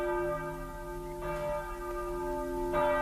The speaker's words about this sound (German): Die Glocke hebt es an, die Leute kommen.